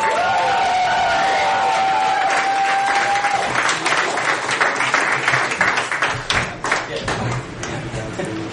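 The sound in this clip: Audience applause and cheering for a performing duo introduced on stage: steady dense clapping with whoops runs throughout and tapers slightly toward the end, while a voice talks over it.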